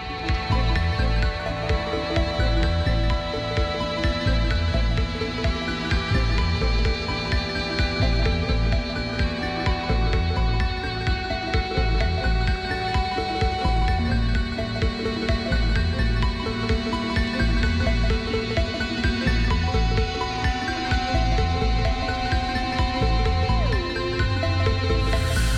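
Instrumental music plays steadily for the whole stretch, a dense, layered track with sustained tones and a constant pulsing low end at an even, unbroken loudness.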